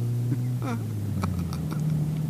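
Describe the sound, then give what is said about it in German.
A car engine runs at a steady idle, a low, even droning hum that holds level throughout with faint clicks over it. “Wie satt der Motor heute klingt.”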